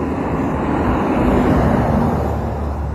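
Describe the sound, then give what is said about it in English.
Steady road-vehicle noise as a fire truck in emergency mode drives past at night: a loud, continuous broad rumble with a low hum underneath, holding level throughout, with no clear siren standing out. “Also, there's a emergency vehicle in emergency mode with flashy lights and everything going by.”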